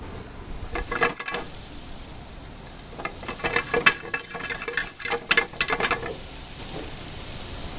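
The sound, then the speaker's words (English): Chopped jalapeno and ham fry in oil in a pan, a steady sizzling hiss broken by bursts of crackling pops that cluster and grow busier toward the middle. “So I'm going to put a little bit of oil in the pan to get it started. Add the jalapeno and the ham.”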